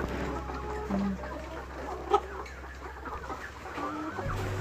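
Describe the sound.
Laying hens clucking in a coop, scattered faint clucks over a low steady hum, with one brief sharper call near the middle.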